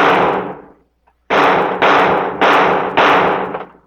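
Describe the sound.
Toy guns fired in a radio drama give five sharp, loud cracks, each with a short noisy tail. A brief silent gap follows the first shot, and the last four come in quick, even succession.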